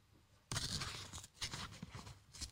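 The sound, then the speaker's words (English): Tearing as something is ripped out of a birthday present, starting abruptly and continuing as a loud, crinkly, papery rip with uneven bursts and no voices. “What, he's just tearing, it out.”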